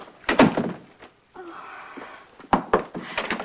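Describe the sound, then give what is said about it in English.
A door is shut, producing a few dull thuds and knocks, with a soft rustling stretch between the louder impacts. “She shuts the door.”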